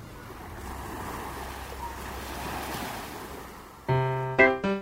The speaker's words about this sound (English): The wind feels so nice. It's a perfect day for a walk to the beach.